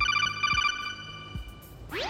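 A phone rings with an incoming call. The electronic ringtone warbles in quick repeated pulses during the first second, then pauses, and a brief rising sweep sounds at the close.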